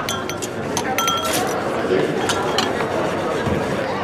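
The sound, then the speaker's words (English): Plates, glasses and forks clang in a noisy restaurant: many sharp, scattered clinks ring over a constant bed of crowd chatter and talk. “You can hear every plate and fork clanging.”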